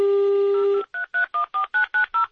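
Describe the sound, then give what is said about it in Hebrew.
Telephone keypad tones as someone dials a number: a longer opening tone, then seven short, evenly spaced DTMF beeps in a steady rhythm, clear and alone with no voices. “איפה הטלפון? הנה, הנה, הנה, הנה הטלפון.”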